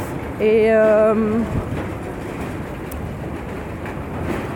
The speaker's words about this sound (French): c'est bruyant à la gare.